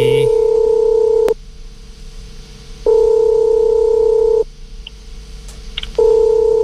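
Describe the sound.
Telephone call tone while calling a listener: three long, steady mid-pitched beeps of about one and a half seconds each, separated by even pauses of faint line hiss.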